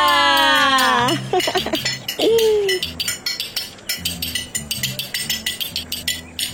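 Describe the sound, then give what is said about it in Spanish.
A cup, lid, saucer and table are tapped in a quick rhythmic run of clinks and knocks. A voice makes sliding vocal sounds before the tapping starts. “Golpeas la taza, la tapa, el platito, la mesa.”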